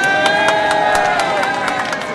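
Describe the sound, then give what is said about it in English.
A crowd cheers and claps at a groundbreaking ceremony for a new preschool in Kiryat Netafim, scattered sharp claps over a loud, steady wash of many voices. “as Kiryat Netafim was concerned, dozens stood around the small patch of dirt, cheering, clapping, and eventually singing the Israeli national anthem as they laid the foundation for a new preschool.”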